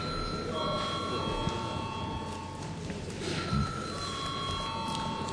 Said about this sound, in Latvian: Debats beidzam. Lūdzu zvanu.